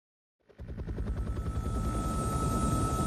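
A helicopter's rotor sound comes in after a brief silence and swells to a steady, rhythmic chopping drone with a low throb and a thin high whine.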